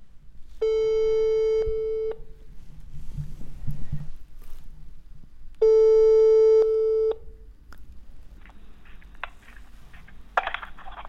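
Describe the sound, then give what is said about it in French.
Telephone ringing tone while a call is being placed: two long, steady buzzing tones separated by a pause, over a faint background of low rustling and shuffling. “Du coup, j'appelle le papy.”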